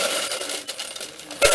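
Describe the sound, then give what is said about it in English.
Coins dropping into a temple vat, heard as a steady stream of bright metallic clinks and rattles, ending with a heavier, lower thud. “So this is what the sound of the coins would have been like going into this vat.”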